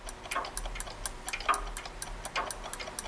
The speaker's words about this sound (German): Nimm dir mal ein Beispiel an der großen Uhr. Da, an der da, schau.